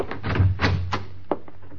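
A door is opened for a visitor with a quick cluster of knocks, clunks and rattles, ending in a sharp, latch-like tap.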